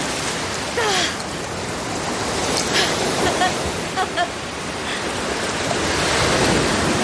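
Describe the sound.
Ocean waves break on a sunlit seashore in a continuous, rushing wash of surf. The steady hiss swells gently at times and stays loud throughout.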